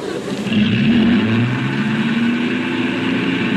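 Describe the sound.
A car engine revs on a car that is missing its floorboards, a moderately loud droning growl that swells early on and then holds as a steady rumble, with no talk over it.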